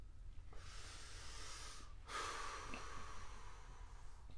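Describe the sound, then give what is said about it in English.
A sharp nasal inhale, breath drawn hard through the nose, starts abruptly with a hissing sniff and trails on for a couple of seconds. It is faint and alone, with no talk. “Let me inhale this shit one more time so you can see, so y'all can hear how I feel about this shit.”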